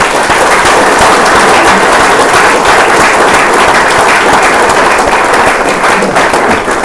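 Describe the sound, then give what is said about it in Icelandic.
Audience applause after a lecture: dense, loud, sustained clapping from many hands that holds at an even level throughout, with no voices over it. “Ef það er ekki fleiri spurningar, þá skulum við bara gefa Sólveigu gott klapp og...”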